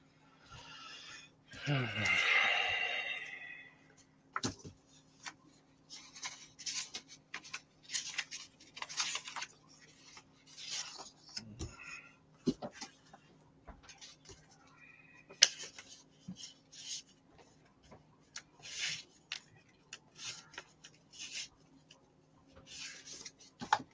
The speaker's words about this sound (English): I'll take my single cutter and trim the bottom of these and make it work.